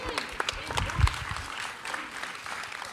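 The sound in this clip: Audience applause welcoming a speaker who is coming up to deliver a message at a gathering: dense, crackling clapping that stays fairly steady across about three seconds, with a few heavier low thumps near the middle.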